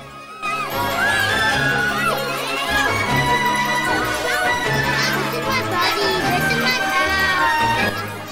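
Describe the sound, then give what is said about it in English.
A crowd of neighbourhood kids gathers and swarms around a boy, producing loud, excited, overlapping chatter and shouts that run continuously at a high level. “Kids from all over the neighbourhood arrive. They swarm around Dennis, patting him on the back.”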